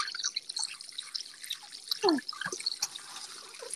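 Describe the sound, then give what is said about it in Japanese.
Dishes being washed under running water, with a faint steady trickle and scattered drips and light clinks throughout. “めっちゃ洗い物する音が。”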